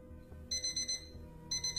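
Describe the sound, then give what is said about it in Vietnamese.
A phone alarm clock ringing: a quick run of bright, high-pitched beeps, a short pause, then another run starting. It is quiet, over a low steady background. “Sáng hôm sau, tiếng chuông báo thức quen thuộc từ điện thoại của Thảo”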